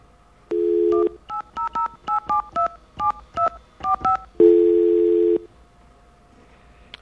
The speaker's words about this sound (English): I've got another number I'm going to call.